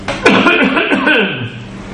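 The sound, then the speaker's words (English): A sharp cough from someone with something caught in the throat, followed by a rough, voiced, throaty sound. “Got something caught in my throat.”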